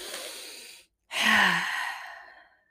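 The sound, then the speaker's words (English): Deep, slow breathing done as a calming exercise for anxiety and a stuffed stomach. A soft, airy breath fades out, and after a short silence a longer, fuller and louder breath rises and then tapers off. “take a deep breath in.”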